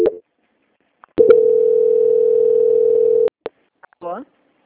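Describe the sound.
A steady telephone line tone heard during a call transfer, one unbroken mid-pitched beep lasting about two seconds, bracketed by sharp clicks and followed by a brief voice.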